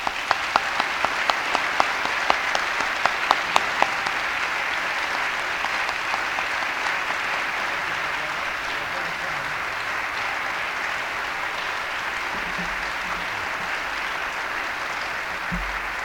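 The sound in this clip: Audience applause welcoming Dr. Stott at Asbury: dense, sustained clapping from many hands holds a steady level for about sixteen seconds, with a few sharper individual claps standing out near the start.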